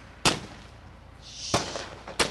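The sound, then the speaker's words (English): Fireworks burst overhead during a local ban on fireworks in Nashville, above dry, sandy brown grass. Three sharp, loud bangs come well apart, and a brief hiss rises just before the second. “Freddie Bowers smiles and stares at the explosions of white overhead. They illuminate the sandy brown grass below.”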